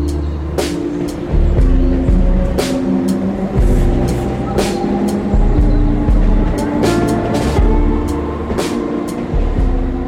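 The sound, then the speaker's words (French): Saint-Cloud train station rumbles with a loud, steady low engine drone, broken by many sharp clicks and clatters at irregular intervals. “Nous sommes ici avec vous à la gare de Saint-Cloud”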